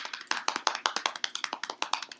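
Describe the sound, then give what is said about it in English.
A mock drum roll tapped out by hand, a fast, steady run of many crisp taps at an even, moderate level with no talking over it. “Our next guest is, little drum roll.”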